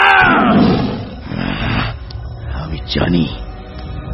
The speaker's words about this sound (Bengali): রাগে বিরক্তিতে আচমকা ভয়ঙ্কর গর্জন করে ওঠে শের খান।